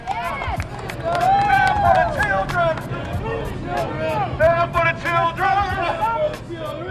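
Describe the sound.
Crowd cheering and shouting at a community rally after a march, with many overlapping voices forming a loud, steady roar that swells and dips throughout.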